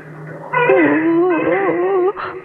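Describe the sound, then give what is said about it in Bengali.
A child crying: one loud, sustained wail with a wavering pitch that rises and falls for about one and a half seconds, then breaks off into a shorter, quieter sob. “কাঁদে না আমার সোনা, কাঁদে না বাবা।”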